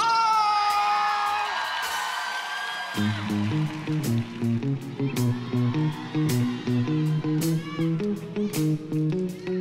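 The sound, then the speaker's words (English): Crowd cheering and whooping for a musician at a worship gathering, a loud wash of shouts for about three seconds before band music with steady low chords and pulsing beats takes over. “I want you all to give it up and make some noise”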